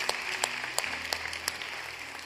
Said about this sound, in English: Can we just put our hands together and welcome people into God's family today?